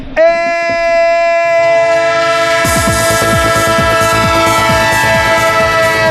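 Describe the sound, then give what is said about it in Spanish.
A train sound effect: a loud, sustained train horn sounds, and a rhythmic clatter of wheels over rail joints soon joins it, with many regular beats continuing under the horn. “El tren de Onda Cero, el tren que no detiene nunca”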